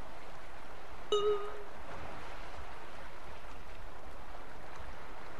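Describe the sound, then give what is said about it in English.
Ocean waves wash in a continuous, even hiss of surf. A single brief tonal chirp rises above it early on, and then the steady rush carries on alone. “Can't you hear the waves? Just listen. There's no one here except me and the ocean.”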